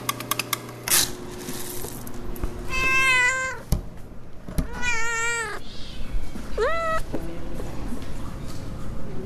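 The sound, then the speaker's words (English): Cats in a cat cafe meow three plain times, the calls rising and falling in pitch, over a steady background hum and scattered clatter. “This is Cat Town Cafe, the very first cat cafe in America. Half coffee shop, half cat adoption center.”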